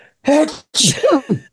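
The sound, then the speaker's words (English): A single loud sneeze sounding like "achoo": a voiced, tonal lead-in followed by a sharp, hissing burst, heard alone with no talk around it. “Sorry. That sounded like the word achoo. That was weird.”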